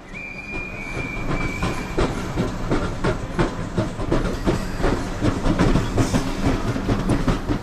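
Train passing a railway platform in 1856 England: a loud, steady rumble with rapid clickety-clack of wheels and a brief high squeal near the start.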